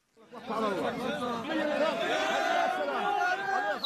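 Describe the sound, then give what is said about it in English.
Crowd cheering in Gaza as families welcome relatives released from Israeli prisons: many overlapping, wavering voices shouting and calling out together, swelling in after a brief quiet start and staying dense and loud throughout. “This is the sound of cheering in Gaza, families welcoming relatives released from Israeli prisons earlier this year.”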